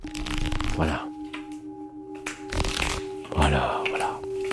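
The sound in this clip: Playing cards are shuffled in several crisp, riffling bursts during a relaxation exercise, over the steady ringing hum of Tibetan singing bowls, with some talk mixed in.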